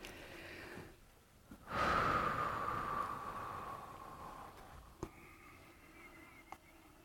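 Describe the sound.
A group draws a deep breath together during a short grounding pause: one long, soft, breathy rush swells abruptly and then slowly fades, followed by near quiet with a couple of faint clicks.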